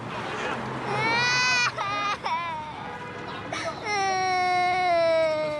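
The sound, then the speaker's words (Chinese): A child cries in loud, high, strained wails during a police questioning scene. The wails break off in a few short sobbing gaps and end in a long sustained cry. “别哭了，叫什么名字？”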